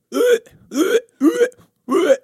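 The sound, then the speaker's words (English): A person vocally imitates a double hiccup attack, producing four loud, strained hiccup-like bursts at a steady, even rhythm, each separated by a brief pause. “I get hiccups at night, and there's nothing worse than hearing me because, like, I get the double hiccups because I'm shaped like Winnie the Pooh”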